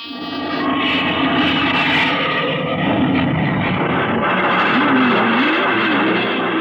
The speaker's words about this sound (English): Clear for takeoff, Charlie? Right. Okay, give them the light.